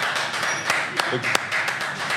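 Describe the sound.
Hands clap to send off a friend, many sharp claps at an uneven pace, heard under ongoing talk.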